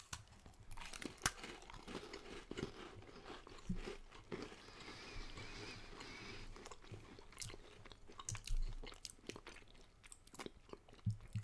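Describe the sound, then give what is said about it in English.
People chewing and biting dry shortbread cookies, with many irregular crunchy bites and some crinkling of packaging, heard alone without talk. “So I'm going to open it up, and we'll each take a cookie and eat it. Thank you. Little ASMR for our listeners.”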